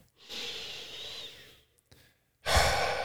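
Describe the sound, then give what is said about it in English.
A person takes a big deep breath during a guided coaching exercise: one long, soft, airy inhale, a short quiet pause, then a louder, rushing exhale. “Just take a big deep breath.”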